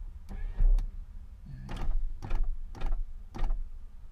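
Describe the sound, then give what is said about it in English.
Car power windows being rolled down, several short mechanical whirs and clunks at a quiet level. “let me roll out the windows a little bit more.”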